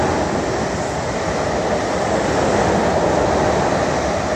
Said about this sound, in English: Here comes the train.